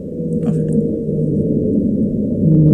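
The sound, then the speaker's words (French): Blue whale song: deep, low droning tones that hold steady and loud for the whole stretch, a sustained rumbling moan with no voices over it. “bleues, par exemple, on peut écouter justement le son de la baleine bleue pour avoir une comparaison.”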